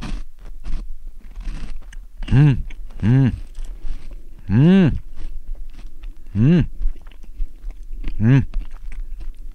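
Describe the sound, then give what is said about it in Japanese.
Crunchy chewing of a thick chocolate wafer snack, with many crisp bites and munches in an uneven rhythm, broken up by a few short voiced hums. “まあウエハースでね、まあビックリマンチョコなんだけど、ちょっと食べてみよう。この分厚くてね、歯ごたえもあってね”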